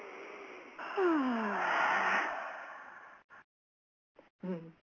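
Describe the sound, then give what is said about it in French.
A deep breath in is drawn during a relaxation exercise: one long, audible inhale with a soft voiced, sighing edge, followed by a few short bits of quiet speech. “Ok, vous prenez une profonde inspiration.”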